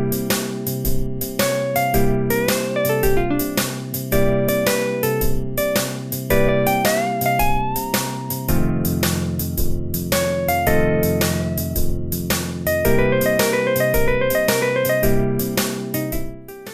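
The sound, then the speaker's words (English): A machine-generated blues solo built from randomly chosen one-bar licks: disjointed runs of short melodic notes jump around in pitch over a steady, regular beat and low accompaniment, with no voices. “If you just tell the machine to do it at random, you end up with solos that sound like this.”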